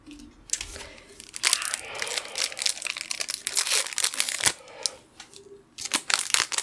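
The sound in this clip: A Lorcana trading card booster pack being torn open, with many sharp crinkles and crunches of the foil wrapper in irregular bursts, separated by a couple of brief pauses.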